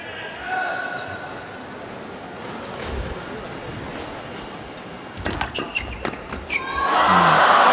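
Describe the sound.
A badminton serve and return rally: a quick run of several sharp shuttle hits near the end, under a commentator's voice, with background noise swelling just afterward.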